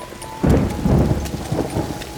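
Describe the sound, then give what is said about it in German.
Steady rain hiss joined by a loud, low thunder rumble that sets in abruptly and keeps rolling under the downpour. “Ja, gehen wir weiter, bevor der Regen noch stärker wird.”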